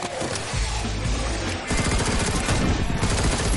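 Gunshots are fired through a gap in a window during a zombie attack. The volley is dense and continuous, stays loud throughout and grows heavier partway through.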